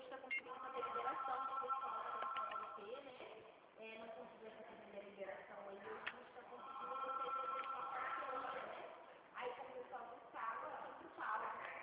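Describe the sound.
A WhatsApp call ringtone plays from a phone: a repeating electronic ringing pattern of bright tones in short phrases, with brief breaks between them.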